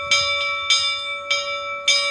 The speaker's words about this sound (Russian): А колокол нам напоминает об этом. Потому что колокол – это олицетворение веры, призывает нас, объединяет нас этот звон колокольный.